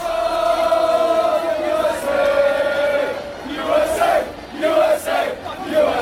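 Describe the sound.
Football crowd in Seattle chanting a simple song, a massed roar of voices holding a sung pitch, steady at first and then breaking into shorter, punchier phrases.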